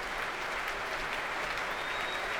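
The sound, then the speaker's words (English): Concert audience applauding pianist Marc-André Hamelin at an orchestral concert: dense, steady applause with no distinct individual claps, holding an even level throughout. “And Marc-André Amelin back on stage with Jacques Funstein, who doesn't want to share in this applause.”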